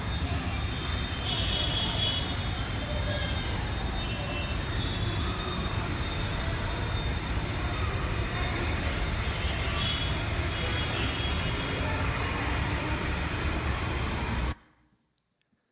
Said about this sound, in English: That is Pune. It is one of the 100 biggest cities in the world. That was the noise of 7.3 million people. It's like off a main thoroughfare, all driving past, honking horns, blanketing the orphanage in sound.